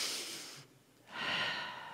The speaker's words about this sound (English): I need all of you to breathe in through your nose and breathe out through your mouth.